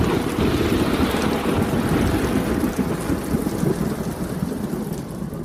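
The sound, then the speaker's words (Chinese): Heavy typhoon rainstorm with a roaring wind in Yuhang in July 2021: a loud, dense, unbroken wash of pounding rain and rushing air that holds steady throughout, with no voices. “台风就卷积着暴雨呼啸而来了。”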